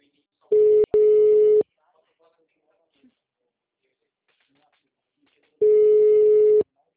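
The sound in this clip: A phone call rings out with no answer, its ringback tone sounding as a loud steady burst broken briefly near its start, then a long silence, then one more identical burst.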